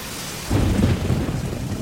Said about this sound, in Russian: Льет дождь.